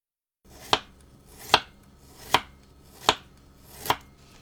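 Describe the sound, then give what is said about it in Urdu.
A knife chopping peeled ginger lengthwise into thin strips: five sharp, crisp chops land evenly spaced on a board, each with a short clack and quick decay, against quiet background with no talking. “اب ادرک کو چھیل کر لمبائی میں باریک ٹکڑوں میں کاٹ لیجئے۔”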